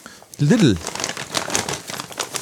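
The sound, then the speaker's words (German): A paper bag of hazelnut-cream-coated sweets crinkles and rustles in many quick, crackly bursts after a brief voice, continuing at a moderate level to the end. “Hast du das in einem Ost-Süßwarenladen gekauft oder warum ist das so eine Papiertüte? Ach nee, ist ja heute überall Papier, ne?”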